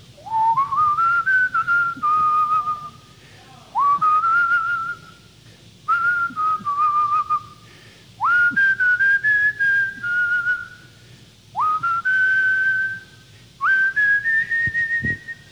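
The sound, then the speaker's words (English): A person whistles a tune alone in six separate phrases. Each phrase swoops up into a clear, fairly high held note, and short pauses fall between them. “And sometimes I just whistle.”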